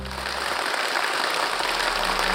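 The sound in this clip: Warm applause from a studio audience congratulating a Tibetan family, a dense, even clatter of many hands that holds steady without pause.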